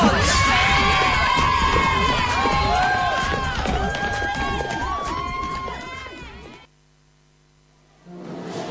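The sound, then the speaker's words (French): Primary schoolchildren from a fifth-grade class fill a school canteen with loud chatter and excited shouting, a dense mass of young voices. It drops abruptly to near silence before faint noise returns. “Vous êtes ici avec les élèves de la cantine? Je suis ici avec les élèves de la 5e année primaire A.”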